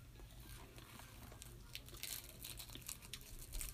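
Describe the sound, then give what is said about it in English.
Faint crinkling and crackling as little sheets of dried seaweed snack are folded up: many small, irregular dry crackles over a low, steady background. “I have to fold these little seaweed pieces up because I can't get it all the way in my mouth. So I fold them up. They're like little sheets of seaweed.”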